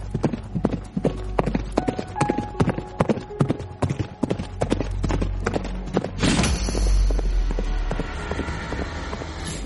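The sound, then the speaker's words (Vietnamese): Galloping horse hooves as a rider spurs his mount after another: rapid, uneven clip-clop beats for several seconds, then blending into a steadier rumble with no voices. “Rồi thúc ngựa đuổi theo Trường Sinh.”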